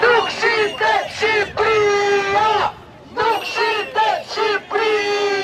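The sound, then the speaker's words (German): Demonstrators chant in unison at an evening protest of about 150 people against the Albanian government on a central square in Tirana, with loud rhythmic vocal phrases broken by short pauses. “Albanien ist nicht zu verkaufen, rufen die Demonstranten.”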